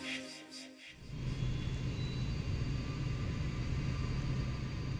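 An airplane is in flight, heard from inside the cabin. After a short quieter opening, a steady, loud engine drone sets in and holds evenly to the end.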